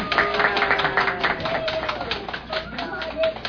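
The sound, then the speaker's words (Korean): Congregation clapping at an Easter Resurrection Day service: brisk, dense clapping from many hands that continues throughout, with voices talking over it. “자, 우리 박수가 작아서 안 나온 것 같아. 다시 한번 힘찬 박수 주세요.”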